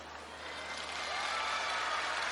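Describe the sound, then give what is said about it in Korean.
An audience applauds at a ceremony as a judge is introduced. The dense, steady clapping swells slightly and holds. “따뜻한 박수로 부탁드립니다”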